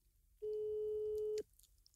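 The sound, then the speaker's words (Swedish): A single steady telephone tone at a flat pitch sounds for about a second as a call goes to voicemail, then cuts off. “Jag ska ringa till henne. Undrar om hon svarar. Jag ska berätta det här för henne. Det kommer inte bli kul. Nej. Men jag ska fråga om vi kan göra andra grejer. Hon har svar på talare.”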